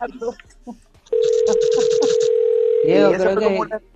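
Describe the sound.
A steady single-pitch telephone line tone signalling an incoming call holds for about two seconds, with voices talking before and after it.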